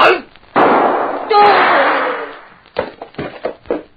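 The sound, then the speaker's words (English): Gunshots ring out in a radio drama: a couple of loud, sharp bangs, each with a long noisy tail, then people talking. “Very stupid of any man to try shooting at a man who is behind him.”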